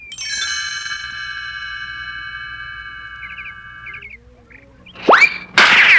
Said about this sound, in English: Yay! Look at that! Sherby got a hit! The team is really up for this one.